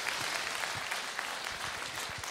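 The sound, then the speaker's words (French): A church audience applauding during a morning service: a continuous, even patter of many hands clapping, fairly faint and steady from start to finish. “Et tous ceux qui croient qu'il vit, puissent applaudir ce matin.”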